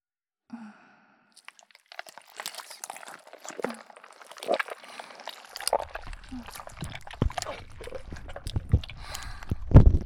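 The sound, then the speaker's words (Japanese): Wet, sticky squelches of runny, almost liquid smooth slime worked around the ears: soft, irregular squishes and crackles that start faint and grow busier and louder toward the end. “ドロッドロの、ほとんど液体のすべすべスライム、お耳にまとわりついて”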